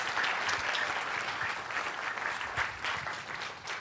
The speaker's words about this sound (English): Make some noise for Adam Gopnik, everybody, please.